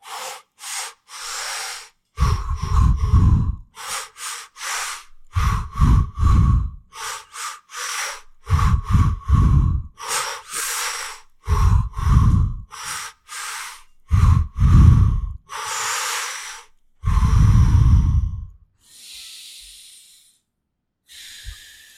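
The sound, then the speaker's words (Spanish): Deep inhalations and sighing exhalations during a breathing exercise: many loud, rhythmic breaths in quick succession, each a short airy rush with brief pauses between, alone without talk. “Podemos pues empezar con una inhalación y un suspiro para empezar juntos. Entonces inhalamos. Suspiro.”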